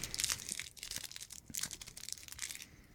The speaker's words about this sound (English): I just want to know how you doing with all the candy wrappers that you've been crinkling into the microphone